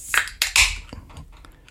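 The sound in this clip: A beer being opened: a few sharp metallic clicks and clinks, then a short fizzing hiss, followed by faint small rattles.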